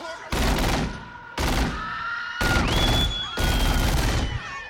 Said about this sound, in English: This one begins with a drive-by shooting before the credits even start.